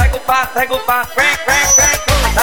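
Duck quacking during a live DJ set at a party: loud, rapid, nasal quacks repeated many times in a quick, bouncing rhythm.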